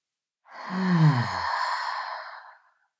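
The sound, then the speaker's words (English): A single long, slow, deep breath taken during a guided relaxation exercise, heard as a loud, breathy sigh of about two seconds that opens with a brief low voiced hum and trails off into soft airy exhalation. “let's take a long, slow, deep breath together.”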